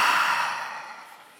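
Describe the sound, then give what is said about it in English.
A group of people takes a deep breath together during a standing stretching exercise, a single long airy breath that is loudest at the start and slowly fades. “Take a deep breath in. Keep your hands up. Reach to the ceiling.”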